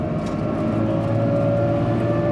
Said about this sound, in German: Da kommt ein Auto. Wo kommt ein Auto? Nach der Kurve.